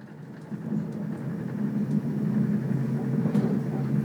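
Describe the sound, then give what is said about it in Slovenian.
A train runs on rails toward Maribor, Slovenia, producing a steady low rumble. The rumble swells after the first half second, then holds at a constant level with faint rattles above it and no voices. “naslednja postaja Maribor. Next stop Maribor.”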